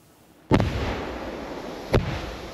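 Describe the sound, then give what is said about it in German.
Two controlled detonations of WWII anti-tank mines, each about 5 kg of explosive set in a dug hole in a forest: two sharp, loud booms about one and a half seconds apart, each trailing off into a long low rumble. “In einem Wald bei Ludwigslust hatten Spaziergänger in der vergangenen Woche zwei Panzerminen entdeckt. Die wurden heute sicherheitshalber gesprengt.”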